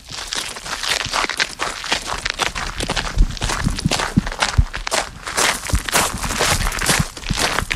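Footsteps enter a small tower and its narrow staircase at the Château de Saint-Point, many irregular scuffing and tapping steps, some heavier than others, continuing throughout with no voices.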